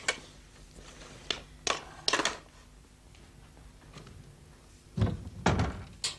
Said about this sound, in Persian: برو در ببند سردی.